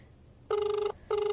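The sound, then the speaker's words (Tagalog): Ringback tone of an outgoing phone call: two steady, even electronic ring bursts separated by a short pause, the second one cut off. No talk is heard. “Ay, teka lang, tatawagan ko siya. Susubukan ko siyang tawagan.”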